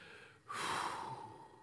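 A big breath drawn in, one loud, airy inhalation that starts abruptly and holds for about a second, with no talk.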